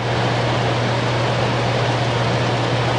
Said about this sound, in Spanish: Pues bien, como algunos seguro saben ya, hoy vamos a hablarles del aparato del aire acondicionado.